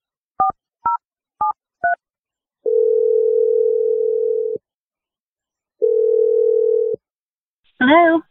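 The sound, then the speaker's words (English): Telephone keypad dialing: four short two-tone beeps, then two long steady ringing tones separated by a pause, and a brief voice answering at the very end. “We're going to dial her number right now.”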